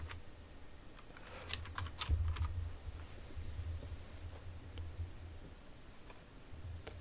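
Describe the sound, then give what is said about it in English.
Faint typing on a computer keyboard: scattered light key clicks in an irregular rhythm, some in quick bursts, over a steady low hum and background noise. “Type that in.”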